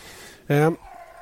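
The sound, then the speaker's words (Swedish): A dog lets out one short, clear whine, a tonal and harmonic cry lasting about a quarter second, standing out alone over a faint low background hum. “Oj, min hund står och gnäller.”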